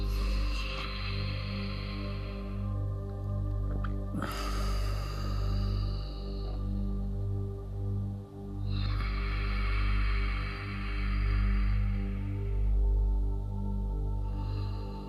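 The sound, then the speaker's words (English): Three slow, deep breaths in a calming breathing exercise for anxiety, drawn first into the belly, then the chest, then the rest of the body. Each is a long, airy hiss over a steady low hum. “So it should sound like this. Three breaths like that.”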